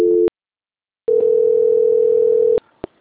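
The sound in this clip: Telephone call transfer tone: a short steady beep, a brief pause, then a longer unbroken tone that cuts off with a couple of sharp clicks.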